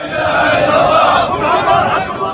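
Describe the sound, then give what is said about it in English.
Mourners chanting defiantly outside a courthouse in Benghazi as coffins are carried aloft; a dense, steady wash of many raised voices sustained without pause. “As coffins were carried aloft and placed before the building, mourners chanted defiantly.”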